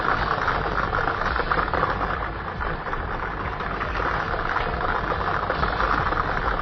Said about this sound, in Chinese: 我们摇奖机已经正式启动了